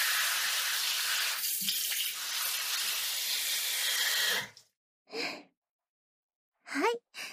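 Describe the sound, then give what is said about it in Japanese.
Running water rinses the back of the head during a hair wash: a steady, full hiss for about four seconds that cuts off abruptly, followed by a few short, soft sounds. “あとは後頭部のあたりを軽く流して、”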